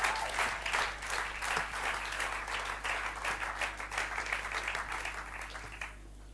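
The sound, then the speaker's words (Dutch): Audience applause for a panel and a band, lively, dense clapping at a steady level that stops abruptly near the end. “So Lisby, come on, won't we give them a hand? Laten we een applaus geven.”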